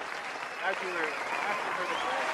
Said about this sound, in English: I don't deserve the applause, but she does.